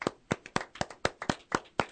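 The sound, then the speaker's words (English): Steady, evenly spaced hand claps, about four per second, praising a live band performance; the sharp claps form a crisp, regular rhythm with no voices over them. “You have the entire band silent still clapping for you on that one.”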